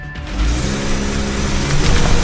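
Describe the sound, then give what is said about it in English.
A car drives off from outside a house with a loud, steady engine rumble and broad road noise throughout, with no sharp revving. “The car takes off, and police make their move.”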